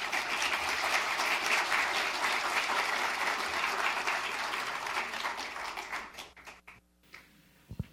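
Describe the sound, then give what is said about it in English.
An audience applauds to welcome a speaker, a dense, steady wash of clapping that holds strong for several seconds, then thins out and fades to scattered claps. “And at this time, I'd like to introduce Dr. Steve Austin, creation scientist and geologist. Let's give him a warm welcome.”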